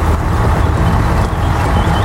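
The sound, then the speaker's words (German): Engine rumble of a shovel-equipped vehicle pulling away in first gear: a loud, steady low drone that holds even throughout, with no clear gear changes. “Hier ist die Gangschaltung. Ich mach mal den ersten Gang rein. Es klappt. Wir fahren.”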